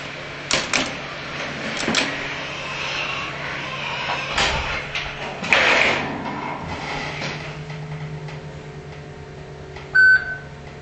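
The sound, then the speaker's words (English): An elevator arrives at a train station amid a steady background hum. A few clunks and knocks sound, and a single short, clear beep rings out near the end. “So once we get on this elevator... Oh, here it is.”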